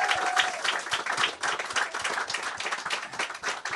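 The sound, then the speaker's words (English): Applause from an audience welcoming a comedian after her introduction, with many hands clapping in a dense, steady patter that continues throughout. “Please put your hands together for Ree Down.”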